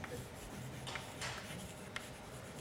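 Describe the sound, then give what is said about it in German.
Faint scratchy strokes of writing on a board during a lecture, a few short bursts of scraping over a soft steady hiss, with no talk. “ich schreibe es jetzt erstmal auf, ich zeige Ihnen gleich ein Bild, dann wird es klar”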